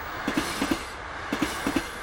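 Wheels of a running passenger train clack over rail joints in paired beats, four double clicks in a steady rhythm above a constant low rumble.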